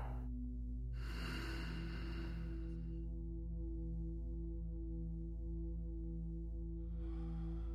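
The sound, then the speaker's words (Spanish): Slow, deep breathing during a guided relaxation exercise: a long airy breath in and out, then a fresh breath starting near the end, over a steady low musical drone. “Inhala una vez más. Y exhala.”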